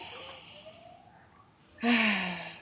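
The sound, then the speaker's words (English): A single deep breath during a tapping session for an injury rises suddenly near the end as a full, airy rush and then slowly fades, with a faint steady tone underneath. “And then just take a deep breath.”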